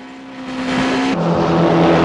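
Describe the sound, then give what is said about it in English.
Two state troopers' police cars race along a road, engines roaring loudly and building, with the engine tone dropping sharply midway as the noise carries on strong. “Two state troopers' cars race along the road.”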